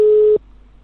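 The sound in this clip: A single telephone busy-signal tone sounds after dialing. It is a steady, mid-pitched beep lasting about a third of a second, then cuts off to faint line hiss.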